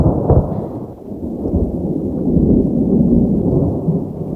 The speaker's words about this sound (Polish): Nawet kolejna błyskawica i grzmot nie odrywają jej od motania.